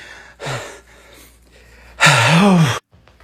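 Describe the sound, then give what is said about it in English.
Heavy, out-of-breath panting from a person: a short breathy exhale, a pause, then a longer, loud, voiced gasping breath that wavers in pitch before stopping. “Why are you so out of breath?”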